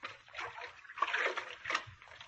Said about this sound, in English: He's getting into the water.